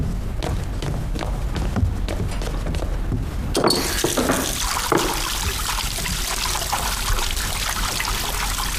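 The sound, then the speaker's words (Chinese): Water runs from a tap as hands are washed before a meal, a steady, continuous splashing trickle that stays loud and even throughout with no voices. “你洗手，洗手就开饭了，我都弄好了。洗手洗手洗手。”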